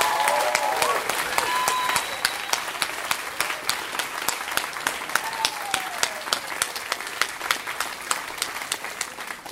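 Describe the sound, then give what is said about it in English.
Audience applause for a storyteller at a live storytelling show: many hands clap in a loud, dense burst that thins into fewer, more spaced-out claps over several seconds. “Give it up for Kevin Allison. That was a fantastic story.”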